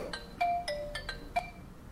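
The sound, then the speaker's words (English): A Viber ringtone plays on an Android phone as a short melodic sequence of a few bright, distinct electronic tones, with no talk over it. “This is the Viber ringtone, those of you that don't have, that have Androids.”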